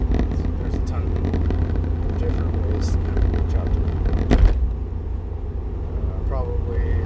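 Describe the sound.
Road noise from a car being driven: a steady low engine and tire rumble runs throughout, with a voice talking over it.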